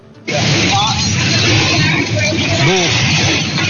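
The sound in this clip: Loud rattling and rumbling inside a moving bus, with the windows clattering in their frames. The noise forms a dense, continuous roar, and a voice is briefly heard partway through.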